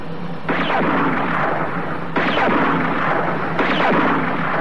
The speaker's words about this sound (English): I'm switching on the light beams now. Lean out and start shooting.